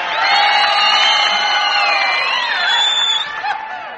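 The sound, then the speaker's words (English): Audience at the Grand Ole Opry cheering and whooping to welcome Lonzo and Oscar, a loud sustained roar of voices with high whoops, easing slightly toward the end. “So what do you say let's all get together and give a great big Grand Ole Opry welcome to them, Lonzo and Oscar.”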